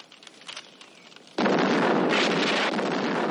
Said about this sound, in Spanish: Otro de los jeeps, que estaba en llamas, también explota.